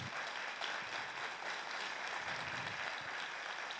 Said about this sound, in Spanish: ¿Por qué no les damos un aplauso a ellos que han venido?